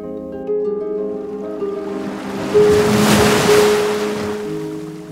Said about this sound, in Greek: Θα περίμενε πρώτα να ηρεμήσουν τα κύματα και να βουτήξει ύστερα στο νερό.